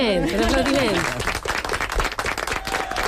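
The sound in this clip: A music class of students applauds after a scale exercise. A voice sounds at the start, then a loose, uneven burst of clapping with distinct separate claps continues for about two seconds.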